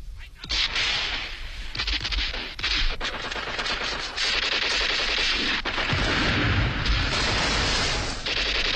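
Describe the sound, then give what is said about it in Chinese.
Gunfire exchanged between two sides in the dark, with German soldiers involved: a dense, loud, unbroken stream of rapid shots and machine-gun-like bursts that keeps up without a pause. “黑暗中双方互相射击”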